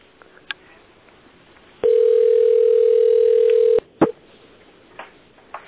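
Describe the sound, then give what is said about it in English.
A telephone dial tone plays as a call is dialed out. The steady, loud hum lasts about two seconds, is framed by sharp clicks, and is followed by scattered faint clicks and thumps on the line. “Okay, we're dialing out.”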